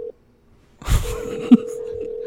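A telephone line tone sounds on a caller's phone line as the call connects: a short steady tone, a gap of silence, a brief burst of noise, then a continuous even tone held to the end.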